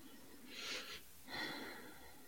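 A deep breath, heard as two soft, breathy bursts of air separated by a short pause, faint and alone.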